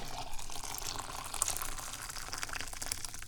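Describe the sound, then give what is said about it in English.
Boiled water poured from a kettle into a cup, a steady watery hiss and trickle that holds at an even level for the whole stretch, with no talk over it. “So here's what we do. We lift it up with a towel and we pour the water”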